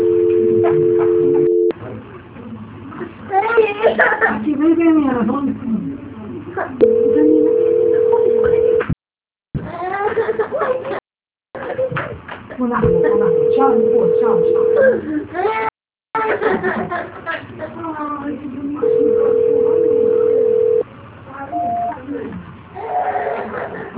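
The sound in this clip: Ringback tones of a telephone ringing unanswered during a call transfer: four steady, level, buzzing tones, each lasting a couple of seconds, separated by stretches of people talking.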